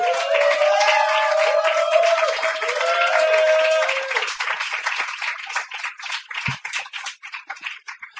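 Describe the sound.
An audience applauds a poet at a reading. The clapping is steady and full for about four seconds, then thins into scattered, uneven claps that fade toward the end.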